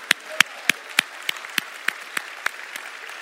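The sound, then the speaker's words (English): An audience at a church service claps together in a steady rhythm, with many evenly spaced, crisp claps landing on a regular beat. “Put your hands together and say, hallelujah.”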